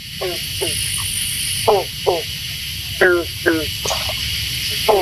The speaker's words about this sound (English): Waiting for insects in a pond in the Holden Arboretum.